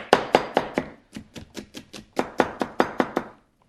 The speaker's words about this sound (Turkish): soğanımı doğramak istiyorum. Bir saniye, hatta şuradan alarak daha konforlu olacak benim için. Soğanımızı doğruyoruz.